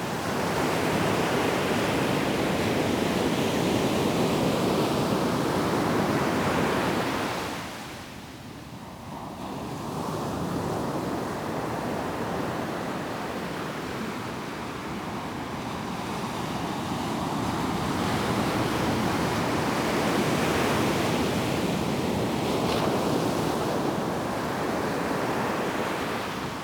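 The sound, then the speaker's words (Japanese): Waves breaking on a beach near a harbour at Sendai port: a continuous broad roar of surf that swells and ebbs, briefly easing about a third of the way in before building again. “こちらは仙台港周辺の浜辺の音です。”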